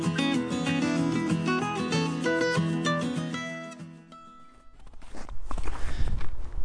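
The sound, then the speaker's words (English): Hiking footsteps on a section of the Ice Age Trail, many uneven crunching steps. They come in over the last couple of seconds as a band of music fades out beneath them. “I grew up not far from the Ice Age Trail, so I decided to go back to my childhood home and hike a section of it.”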